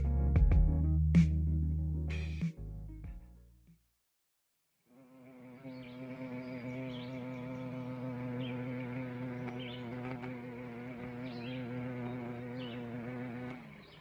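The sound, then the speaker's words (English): Carpenter bee buzzing: a steady, continuous low drone with rich harmonics that holds evenly for about nine seconds after a short silence, preceded by a brief unrelated louder tone at the start. “This is the sound of a carpenter bee.”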